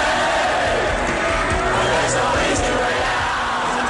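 A roaring crowd at a 2009 stadium concert at Murrayfield Stadium in Edinburgh, a loud, sustained mass of cheering and shouting that stays at a steady level throughout.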